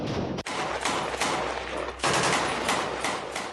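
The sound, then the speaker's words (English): Gunfire from troops firing weapons amid heavily damaged buildings: many loud, sharp shots crack in quick succession over a constant dense rumble, with no voices. “Videos from the Israeli military show troops firing their weapons in the middle of heavily damaged buildings.”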